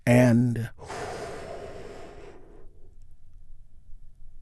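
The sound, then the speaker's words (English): A deep breath taken during a guided relaxation exercise: a brief, loud voiced tone opens, then a long, breathy, sigh-like exhale lasts about two seconds and fades into quiet. “Join me in taking another big, deep, healing breath right now.”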